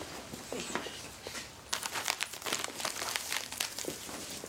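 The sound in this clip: Crinkling of a wafer snack wrapper: continuous crackly rustling that turns busier and sharper in the second half, with no voices over it.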